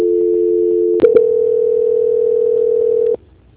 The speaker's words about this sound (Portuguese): peço que você aguarde na linha que eu vou transferir o nosso contato para o controle de qualidade